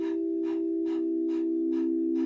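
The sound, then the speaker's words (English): A person pants rhythmically through an open mouth with the tongue out, like a dog: about six quick breath bursts, evenly spaced, over a steady droning tone. “open your mouth, stick out the tongue, begin to pant rhythmically like a dog”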